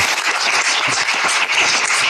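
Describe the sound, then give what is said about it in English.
Loud, dense audience applause during a church sermon, a continuous roar of many hands clapping at once with no break across the whole stretch. “Why the applause?”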